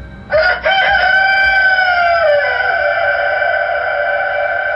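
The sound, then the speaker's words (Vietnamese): A rooster crows from a cage that was struck, in a mountain ravine above water. One long, loud crow with a choppy, stuttering start and a strong, drawn-out held tail, heard alone. “Anh ta vội vỗ mạnh vào lồng gà sau lưng. Gà nộ tình lập tức cất tiếng gáy vàng, âm thanh dội xuống mặt nước.”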